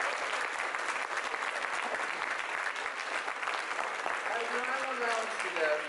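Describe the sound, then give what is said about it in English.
Dense audience applause greets the cannabis lawyers at a gathering. The steady clapping holds at an even loudness throughout, and a voice rises over it near the end. “Can we have a round of applause for the cannabis lawyers?”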